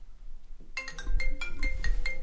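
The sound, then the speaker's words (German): An electronic phone ringtone for an incoming call, with bright, repeating melodic notes in a steady pulsing rhythm over low background noise. “Wartet mal ganz kurz bitte. Da ruft mich jemand an.”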